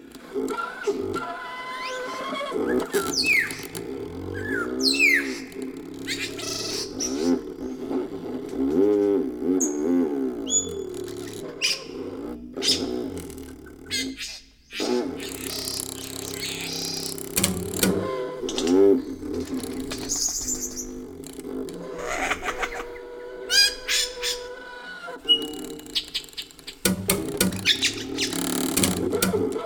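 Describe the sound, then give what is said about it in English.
In a rainforest, a bird mimics dog barking with loud, low, repeated bark-like calls, woven among varied whistles, clicks and rattling notes in a long, busy song. “suburbs are mimicking dog barking. They're low frequency sounds, so they carry better through the rainforest than the high frequency stuff, and you can hear them at quite a distance. They're very loud.”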